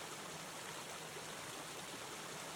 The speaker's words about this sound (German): Sehr entspannt mit den Wassergeräuschen im Hintergrund.